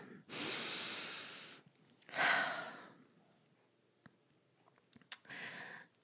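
Deep breathing as someone draws a breath in, heard as three long, airy breath sounds separated by quiet pauses with a few faint clicks, and no speech.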